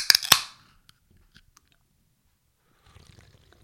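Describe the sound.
A can of Zevia Cola is snapped open with a sharp crack and a short fizzing hiss, followed by a few faint, sparse sounds and a soft low rustle near the end.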